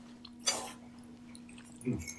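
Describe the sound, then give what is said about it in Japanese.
Soft, wet chewing sounds come from eating creamy fettuccine with oysters: two short, quiet squishy bites, the second lower and fuller. “ちなみにパスタいかがですか？ うんふん、 うんふん。いただきます。”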